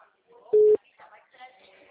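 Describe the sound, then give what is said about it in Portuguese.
A single short, steady telephone tone sounds once on a call that goes unanswered, and a voice speaks after it. “Alô? O número não responde.”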